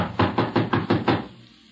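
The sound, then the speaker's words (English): Knocking on a locked wooden door: six quick, firm raps in a steady rhythm, each one loud and resonant, followed by a short fading silence. “The door's locked, all right. Well, let's try knocking.”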